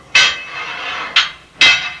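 A jail cell door is slammed and locked in a radio drama, giving three sharp metallic clanks. Each clank is loud, with a short ringing tail.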